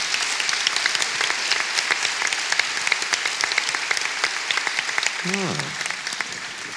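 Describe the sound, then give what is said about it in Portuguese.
Audience applause greets the first guest at a live stand-up comedy show: dense, steady clapping that continues throughout, with a brief voice rising above it near the end. “Uma salva de palmas para Carlos Vidal.”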